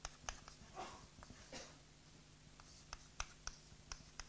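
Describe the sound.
Faint scratching strokes of writing come in short, uneven bursts with small clicks between them, quiet and with no talk over them.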